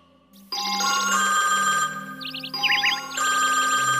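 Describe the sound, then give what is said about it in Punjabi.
A telephone ringtone plays during a phone call: a loud electronic warbling trill over sustained tones that pauses briefly, then resumes and rings on steadily. “ਲਾ ਤੇ ਫਿਰ ਸੁਨਰ ਨੂੰ phone.”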